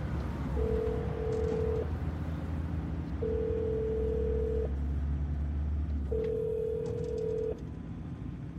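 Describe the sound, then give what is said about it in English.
Telephone call ringing, three steady long ringback tones separated by even pauses, sounding over a low continuous hum. “Call Colin.”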